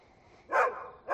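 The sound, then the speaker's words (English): A white dog sitting across a road at night barks twice, two short, fairly loud yelps, the second cut off, over a faint steady background. “A white dog sits across the road.”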